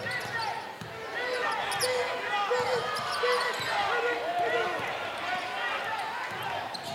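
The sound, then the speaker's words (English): A basketball is dribbled left-handed on a court during a game, its repeated bounces running beneath steady crowd noise and people talking. “left-handed dribble”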